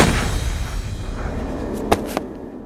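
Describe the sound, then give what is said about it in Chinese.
Gunfire in a Robinson Crusoe adventure audio drama, two sharp, brief cracks close together near the end, rising abruptly above a dull, rumbling background. “以上帝的名义，开枪！”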